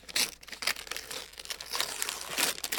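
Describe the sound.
Paper crinkling and rustling as a wrapped Christmas present is unwrapped, a steady busy crackle with several louder crumpling bursts throughout.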